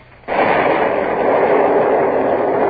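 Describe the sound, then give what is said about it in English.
A ship's cannon fires grape shot: a sudden loud blast that becomes a steady, broad roar lasting a couple of seconds. “load with grape shot.”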